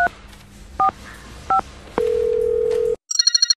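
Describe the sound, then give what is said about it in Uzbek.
A telephone call being placed: three short two-tone keypad beeps, then a long steady tone, a brief silence, and a burst of rapid, loud ringing pulses. “Yana bir marta telefon qilib ko'raychi.”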